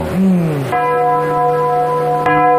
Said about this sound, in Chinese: 您记得当时这个钟声是什么声音吗？ 就是现在这个声音。